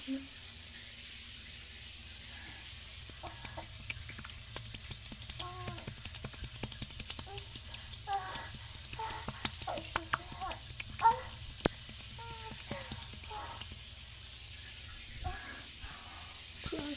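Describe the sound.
Running tap water pours in a steady, faint hiss while something furry is being wetted, with voices talking softly over it.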